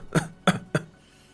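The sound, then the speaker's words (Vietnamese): A man coughs violently while clutching his chest, each cough harsh and racking, as if bringing up blood. There are three sharp, forceful coughs at a steady pace, followed by quiet. “Hắn ôm ngực, ho kịch liệt.”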